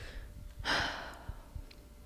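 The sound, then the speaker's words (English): A single heavy, breathy exhale from someone out of breath, a soft rushing puff lasting under half a second, with faint low thumps around it. “I forgot how out of breath I get when I do this.”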